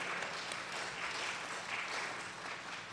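Faint, steady applause from an audience welcoming a guest onto the stage, an even wash of clapping that holds at the same level throughout without voices.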